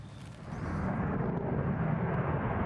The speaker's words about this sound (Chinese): 美国军方最先进的 F-35 联合攻击战斗机前所未有地飞越白宫上空